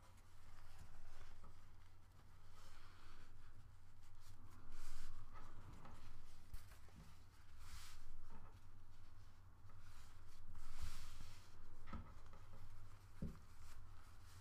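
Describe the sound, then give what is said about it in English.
Soft rustling and rubbing of a cloth napkin as it is folded, flipped over and its edges pressed together. The sound is quiet and close, rising and falling in gentle swells, with a few tiny taps. “So now your napkin should look like this. And flip it over and fold these two edges together.”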